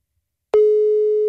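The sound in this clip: A redialed phone call goes unanswered: a click comes first, then one steady, sustained ringing tone at a single pitch that carries on alone.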